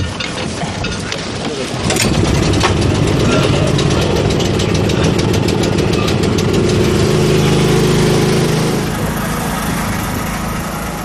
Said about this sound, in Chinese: 发电机得拉起来，对。